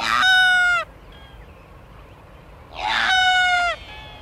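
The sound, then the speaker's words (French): Sooty albatrosses on an island call: two loud, sustained, richly harmonic cries, each under a second long with its pitch dropping at the end, separated by a quiet gap. “ce bruit de hocher, en fait, c'est le chant d'un des oiseaux les plus majestueux de l'île. Ce sont des albatros, les albatros fuligineux.”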